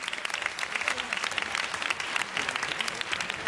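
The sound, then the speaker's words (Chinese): Audience applause at a school quiz contest: dense, steady clapping that fills the whole stretch at an even, fairly loud level with no clear break or single claps standing out. “俾啲掌声。”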